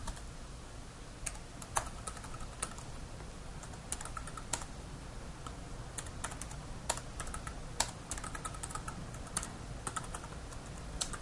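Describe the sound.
Faint typing on a computer keyboard as a command is entered in a debugging session: many light, quick key clicks in an irregular rhythm that carries on throughout, with no voices.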